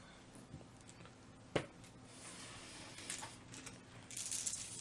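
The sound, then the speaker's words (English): Faint rattling and clicking of dice rolled during a Deadlands tabletop role-playing game, with one sharp clack and softer scattered tumbling sounds later. “Rolling dice. There we go.”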